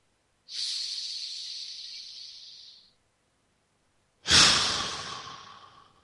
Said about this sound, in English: So take that breath now.